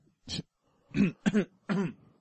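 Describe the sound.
A person clears their throat in a short series of rough, low grunting bursts, moderately loud, with pauses between them and no speech.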